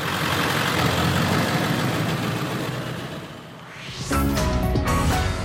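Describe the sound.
A truck engine rumbles as the driver pulls away late in the evening, heading out to peanut fields. A broad, steady roar dips, then the engine revs with a clearly rising pitch and settles into a loud, throbbing drone.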